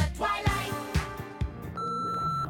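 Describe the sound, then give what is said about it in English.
Voicemail beep: a steady, clear electronic tone sounding alone for under a second, following a few brief, louder sounds. “Oh, it's your voicemail.”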